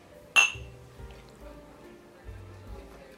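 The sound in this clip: Glasses clink once in a toast over expensive whisky, a single bright, ringing chink followed by quiet, low voices murmuring.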